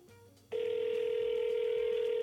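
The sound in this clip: A steady telephone ringback tone on an unanswered call starts abruptly about half a second in and holds one even, unbroken pitch to the end, loud and alone.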